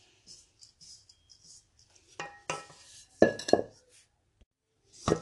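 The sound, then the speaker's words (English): Spoon and dish clinks and scrapes as leftover oatmeal crumble topping is added over blackberries in a dish: soft scattered taps, then a few louder scraping bursts, with no talk. “Now on top of the blackberries, I'm gonna start adding the what's left of my oatmeal mixture.”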